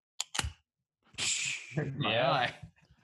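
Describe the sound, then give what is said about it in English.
Two quick sharp cracks with a brief fizz come from a bottle of beer from Norton's Brewing being opened. Casual talk follows right after. “I've been saving up a few beers for this. Crack it open, dude. Just crack it open.”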